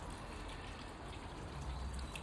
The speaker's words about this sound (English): 1:10 p.m. on Easter Sunday here in my front garden, front of the house by the pond and my water features.